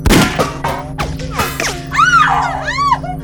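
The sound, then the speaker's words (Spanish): A ship's bridge windshield is smashed with several heavy, irregular blows, each a loud crack or thud. After the blows, strained groaning vocal sounds rise and fall. “Voy a romper el parabrisas.”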